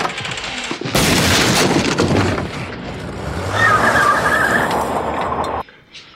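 A gunshot during a hurried armed getaway hits sharply at about one second and gives way to several seconds of heavy, sustained noise, with a faint high whine near the end before it cuts off abruptly.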